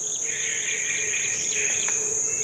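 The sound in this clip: Insects in nature chirr in a continuous, high, even drone, with a faint bird chirp briefly rising above it.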